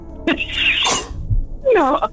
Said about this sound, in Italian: Salute. Quando vuoi starnutire nel microfono. Scusatemi, credimi. Ho l'allergia oggi